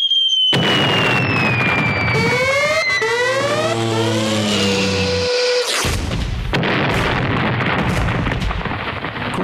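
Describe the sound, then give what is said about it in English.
Fireworks burst loudly with bombs whistling as they fall in pitch, many crackling pops and booms packed together in a dense, continuous barrage. “Do you hear those bombs bursting in air and into your eardrums? Yes, I do.”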